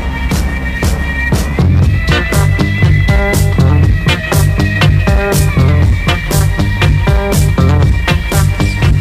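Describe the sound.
A swamp rock song plays loudly, driven by a steady, punchy drum beat with sustained, twangy instrumental tones layered above it throughout.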